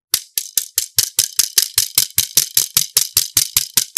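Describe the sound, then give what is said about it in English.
A bundle of five rods strikes again and again in a fast, steady rhythm, many bright clattering hits at about five per second. Each hit is a crisp, rattling snap that fades quickly. “I think these are rods. They're rods. Five rods. They are together so they can hit. Oh, I can actually show you the sound on this one because this one makes a great sound.”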